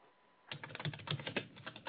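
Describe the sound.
Fast typing on a computer keyboard starts after a brief quiet moment, then runs as a dense, rapid, irregular clatter of key clicks.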